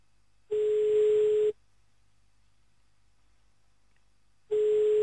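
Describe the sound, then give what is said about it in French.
Telephone ringback tone heard while a call is placed to Arlon: a steady low electronic tone sounds for about a second, stops for a long silent gap, then starts again and is cut off at the end. “C'est parti, on rappelle à Arlon maintenant.”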